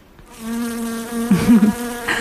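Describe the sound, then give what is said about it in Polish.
A housefly buzzes steadily, a loud droning hum with rich harmonics that wavers and flutters briefly midway before settling back into an even whine. “Czyli co to za odgłos? Mucha albo pszczoła. Mucha.”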